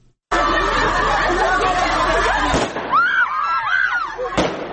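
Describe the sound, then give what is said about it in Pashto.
Protesting women shout and scream in a dense crowd on a Kabul street. Two sharp bangs of gunfire from Taliban forces cut through the noise, with raised, wavering voices between the shots. “دا د اعتراض کوونکو مېرمنو شور او د طالب ځواکونو د ډزو غږونه دي”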